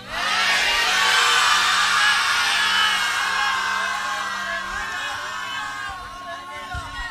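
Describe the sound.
A church audience shouts praise to God on a count of three. Many voices roar together in a loud, sustained mass shout that eases slightly toward the end.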